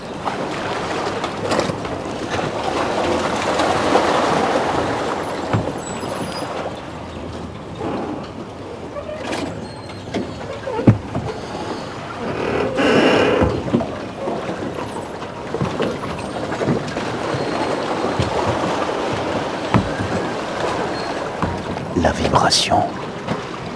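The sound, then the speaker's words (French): Water washes and laps steadily around a pontoon while the vibration of the moving boat hums underneath. Scattered knocks and thumps break through the broad, continuous sloshing. “le son du ponton.”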